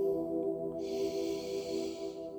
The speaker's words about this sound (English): Take a deep breath in